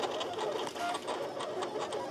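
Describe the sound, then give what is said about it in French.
A vinyl cutter cutting out a map of Switzerland makes a continuous mechanical whirring and buzzing, a busy rattling texture that holds at a steady loudness without pauses. “le découpage d'une carte de la Suisse grâce à une imprimante vinyle. C'est d'ailleurs le travail qui était en cours ce matin lors de notre visite au Test Lab.”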